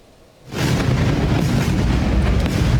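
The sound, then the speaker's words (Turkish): Explosions in southern Iranian cities come through as a loud, continuous rumbling roar. It starts abruptly about half a second in and holds steady to the end, with no separate blasts standing out. “İran'ın güney kentlerinden peş peşe patlama sesleri yükseldi.”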